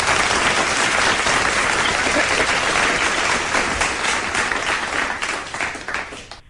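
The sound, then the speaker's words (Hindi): An audience greets a guest arriving at the start of a program with sustained applause: dense, steady clapping from many hands that holds at full loudness for several seconds, then thins and fades at the end. “अब आप आ गए हैं तो फिर आपको इन तालियों की गूंज लगाते हैं”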